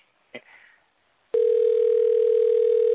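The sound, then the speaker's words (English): A telephone tone on an outgoing call. After a brief click and faint noise, a loud, steady single-pitch tone starts abruptly and holds unbroken to the end. “we can hear the phone ring”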